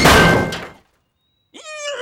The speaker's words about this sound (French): Mais le chariot à pédales sur lequel est Oggy se pointe à toute allure et les écrase tous les quatre contre la porte.